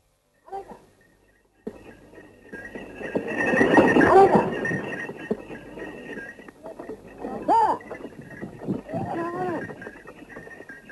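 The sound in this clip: A bullock cart moves along with a steady rumbling clatter and a few hoof-like knocks. Voices talk over the cart noise throughout.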